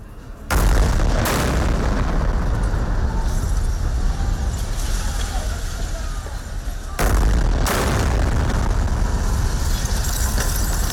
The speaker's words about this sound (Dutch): In Gazastad klinkt dat zo. Allereerst is er stilte en dan ineens een enorme explosie. En dan nog een.